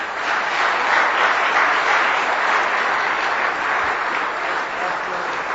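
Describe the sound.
Steady applause from a church audience welcoming a guest speaker at a morning service. The dense, even wash of clapping holds at a constant level from start to finish, with only a slight dip near the end.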